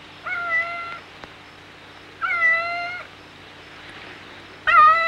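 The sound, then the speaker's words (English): A cat meowing three times, each a drawn-out, steady, high-pitched mew separated by pauses, the last one cut short at the end, over a faint low hum. “A cat rubs against the base of the ladder.”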